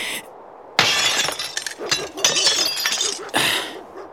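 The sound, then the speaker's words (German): Glass shattering as a window pane is smashed in: a sudden loud crash, then further bursts of breaking and tinkling glass. “Ich schlag die Scheibe ein.”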